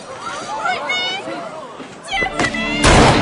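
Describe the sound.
A gunshot fired into the air erupts as a sudden loud burst near the end, after a stretch of busy overlapping voices and a wavering tonal sound.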